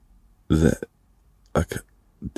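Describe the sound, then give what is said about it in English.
A voice imitates a half hiccup with a few short, cut-off gulping bursts. They are fairly loud against near silence, with a burp-like catch in each. “Because I got these hiccups, but they were like half hiccups.”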